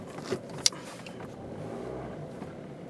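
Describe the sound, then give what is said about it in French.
Car driving along a road, heard as a faint, continuous low rumble of engine and road noise, with one brief sharp click early on. “ça va être un peu route, hein, comme euh, podcast, parce qu'évidemment, je roule.”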